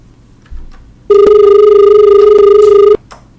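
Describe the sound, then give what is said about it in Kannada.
A telephone rings with an incoming call during a farming-advice phone-in: one loud, steady electronic ring of about two seconds with a clear, even tone, alone and followed by quiet. “ಒಂದು ಕರೆ ಇದೆ sir, ತಗೋಣ.”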